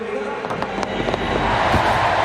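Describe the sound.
A home crowd cheering at a women's pole vault competition in Britain, a broad roar that swells louder as it goes, with scattered sharp claps.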